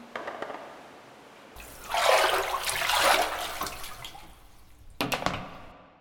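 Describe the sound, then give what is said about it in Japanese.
Hot water poured over a body while bathing, one long splashing pour followed after a pause by a shorter burst of running water, with no voices. “まずは、体洗っちゃおっか。お湯かけて。”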